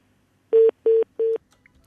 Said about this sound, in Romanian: Iată că numărul a fost format.